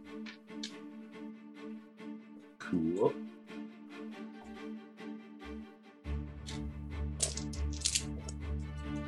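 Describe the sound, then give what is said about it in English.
Dice roll during a tabletop role-playing game: many small rattling clicks and clatters, sparse at first and then denser, over a steady hum, with a voice heard briefly. “A lot of dice you're rolling, by the way, for the benefit of the tape.”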